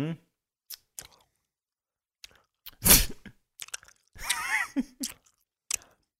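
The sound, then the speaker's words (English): Biting and chewing a really chewy food: scattered wet clicks and squelches, one louder crunchy bite in the middle, then more moist chewing with a brief murmured voice. “Okay, so I'm gonna bite it now. It's really chewy.”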